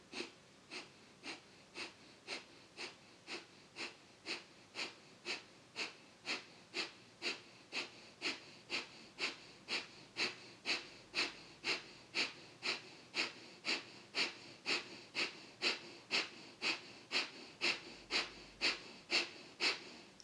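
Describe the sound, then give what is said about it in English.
Kapalabhati breathing: many rapid, forceful exhales pushed through the nose in a steady, evenly spaced rhythm, each a short hissing puff, continuing without a break and without talk. “Receive a comfortable inhale and around a kapalabhati, like you're blowing out a birthday candle with your nose.”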